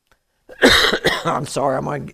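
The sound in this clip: A preacher coughs and clears his throat mid-sermon: a harsh, loud cough burst, then a few rougher, partly voiced throat-clearing rasps, heard alone.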